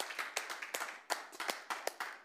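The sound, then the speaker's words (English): A church audience claps hands, many distinct, sharp claps landing in an uneven rhythm at moderate loudness, with brief gaps between bursts. “Can I just give you a hand clap for coming to church when you're drained?”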